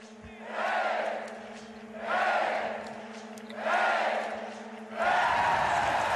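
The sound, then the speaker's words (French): A biathlon crowd cheering and shouting in four distinct swells, each rising and fading in turn, over a steady low electrical hum. “On a entendu le public.”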